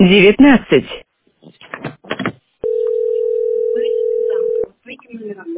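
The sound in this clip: A steady telephone tone sounds while a number is being called, one unbroken two-second beep at a fixed pitch. People talk before and after it.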